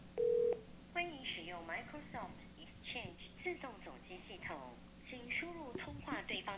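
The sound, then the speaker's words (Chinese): A call is dialed through an office switchboard to an internal extension. A single short touch-tone beep is followed by a voice speaking over a faint, steady hum. “模拟说，实际打交换机呼叫内部分机的一个效果给大家听一下子啊”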